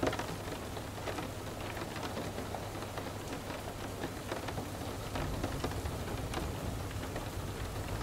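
Rain falls steadily onto a surface, a dense, even hiss of countless drops that holds at a constant level throughout with no voices.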